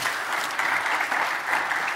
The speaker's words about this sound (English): Can you guys give them all a round of applause?